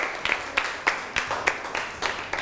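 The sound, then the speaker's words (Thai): Faint classroom applause for a classmate, made of separate claps in a steady, evenly spaced rhythm rather than a dense roar. “ปรบมือให้กับเพื่อนหน่อยครับ”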